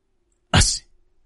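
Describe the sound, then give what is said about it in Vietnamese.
One loud, sharp sneeze from an old man in cold weather: a single abrupt burst of breathy noise lasting a fraction of a second, heard alone, followed by a faint trailing sound. “Lưu Cần hắt xì một cái rõ to”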